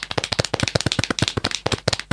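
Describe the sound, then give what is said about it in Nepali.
Applause from a gathering welcoming an invited elder speaker: brisk, sharp hand claps in an uneven, dense patter that carries on throughout, with no talk over it. “उहाँलाई तालले स्वागत गरौँ।”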